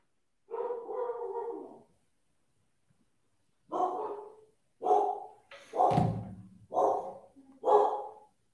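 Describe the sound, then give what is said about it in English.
Dogs barking at home: a drawn-out bark-like call, then after a short pause a run of several loud, sharp barks in quick succession, with no talk over them. “Now people can hear my dogs in the background.”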